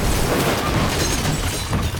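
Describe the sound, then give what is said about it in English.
A number 10 London bus crashing into the desert, falling on its side and rolling over: a loud, continuous roar of crashing and grinding with heavy low rumble and no pause. “a number 10 London bus thunders towards him and crashes into the desert with Griffin”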